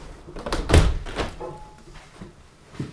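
A window being closed after its glass and frames were wiped with a towel: a few soft thuds and knocks, the strongest one early, all fairly faint and muffled.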